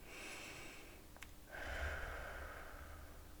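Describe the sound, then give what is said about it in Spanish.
A deep breath drawn in with eyes closed, heard as a soft, airy rush that swells after a brief sharp sniff and holds steadily to the end over a faint hiss. “Cierra los ojos y respira profundamente.”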